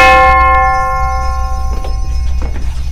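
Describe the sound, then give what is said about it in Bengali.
Division bell ringing in a parliament before a bill's third and final reading: a loud, sustained bell tone with bright, steady overtones that slowly fades, with a few faint knocks underneath. “Division bell বাজছে, বিলের তৃতীয় ও চূড়ান্ত পাঠ এখন শুরু হবে।”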